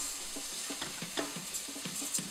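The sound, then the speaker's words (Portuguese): Risotto rice is stirred into softened, golden onion in a pan, giving a steady frying sizzle with a few soft scraping strokes of the spoon rising above it. “Juntamos a cebola e vamos deixá-la dourar até ficar macia. Juntamos agora o arroz le chef de risoto. Envolvemos bem na cebola.”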